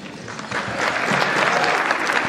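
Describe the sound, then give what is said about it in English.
Audience applause as a US president is introduced on stage for a speech: dense clapping from many hands that builds during the first half second, then holds loud and steady to the end. “And a special thanks to the 42% of you actually applauded.”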